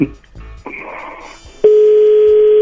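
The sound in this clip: Phone call going through to voicemail: muffled line noise and voices, then a long, loud, steady tone that holds to the end.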